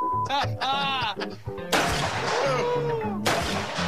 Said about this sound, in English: Iron sights and quick. Let's go shoot that 223.